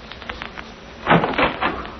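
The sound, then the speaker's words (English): A door is opened: a few muffled knocks and scraping rattles cluster in the middle and latter part over a dull, steady background hiss, with no speech. “This is the door. I'll open it and you step in, Miss Wright.”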